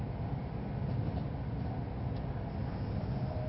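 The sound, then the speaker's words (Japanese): Steady low rumble inside a Tohoku Shinkansen carriage on a Hayate Super Express coupled with a Komachi Super Express, a constant even drone with a faint hiss above it and no talking. “Ladies and gentlemen, welcome on board the 東北新幹線。 This is a Hayate Super Express bound for 八戸 combined with a Komachi Super Express bound for 秋田。”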